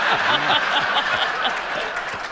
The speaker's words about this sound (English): don't step on my applause again, young man.